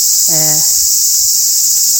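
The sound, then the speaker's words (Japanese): A cicada's last song, a loud, steady, high buzzing drone that runs unbroken through the whole clip, with a short tonal call briefly over it near the start. “このセミの最後の鳴き声と一緒に、今は、”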